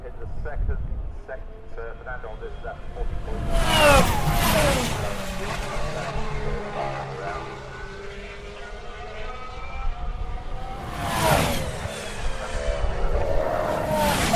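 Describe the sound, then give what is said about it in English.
Turbocharged racing cars approach the Stowe corner, about 100 metres out, in two loud passes. Each brings a roaring whoosh of displaced air and whining turbo notes that slide downward in pitch as the cars wind down. “This is the sound of the cars approaching Stowe, about 100 metres from the corner.”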